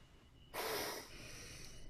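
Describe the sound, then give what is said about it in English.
A single short inhale through the nose during a breathing exercise, a soft, airy hiss lasting about half a second, followed by faint steady background hiss. “we're going to just breathe in through our nose into our tummy for 2 seconds.”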